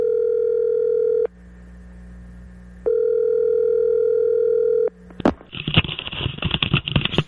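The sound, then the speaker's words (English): A loud, steady telephone dial tone hums while a call is being dialed. It cuts out briefly, returns, then stops, followed by clicks and irregular rustling noise. “So let's dial up Luka.”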